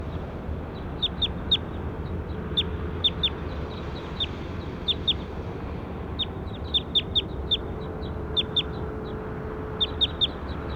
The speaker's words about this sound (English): That's bird two.